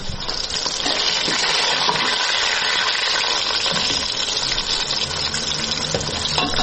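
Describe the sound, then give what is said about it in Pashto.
Loud, steady sizzling of meat frying with onions in a pot for Afghan qorma stew in a home kitchen in Kabul, a dense continuous hiss that holds evenly from start to finish with no voices. “خو سرومیان مې سره کړي دي، اوس پیاز مې سره کړي، اوس پکې غوښه اچوم، دا قورمه پخوم.”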